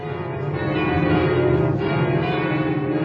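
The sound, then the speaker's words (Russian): Church bells of Notre-Dame in Paris ringing, the 15-ton bourdon among them, in a loud, dense, sustained peal of overlapping tones that keeps up through the whole stretch with no voices. “В День Победы, в мае 45-го, звонили колокола Нотр-Дам, и среди них 15-тонный бурдон.”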